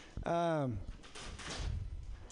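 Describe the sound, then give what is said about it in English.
A door creaks open or shut with a loud, squealing tone that slides downward in pitch over about half a second. Quieter, rough noise continues afterward. “Yeah, fuck that door.”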